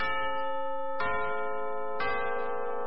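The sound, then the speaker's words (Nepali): A radio station time signal chime marks 6 a.m. with three bright, bell-like strikes spaced one second apart, each leaving a ringing harmonic tone that slowly decays. “सहिलो समय सूचक अहिले बिहानको 6 बज्यो। यति बेला बिहानको 6 बज्यो।”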